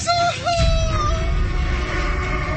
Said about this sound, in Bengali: লোকটাও বিকট এক চিৎকার করতে করতে পড়ে গেল নিচে।